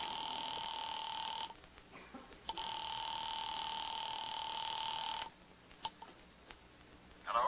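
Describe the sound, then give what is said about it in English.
Telephone being dialed and then ringing at a military police office at night, a steady electronic tone pattern broken by brief clicks and short pauses, moderately quiet with no talk. “on duty in that office, had just dialed the telephone number.”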